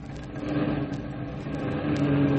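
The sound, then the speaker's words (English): An army staff car engine strains in low gear while bogging down in mud: a steady, low, throaty drone that swells slightly louder toward the end. “She's bogging down. Slam her into low gear, quick.”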